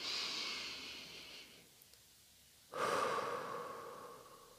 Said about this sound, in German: Und atme wieder ein und aus.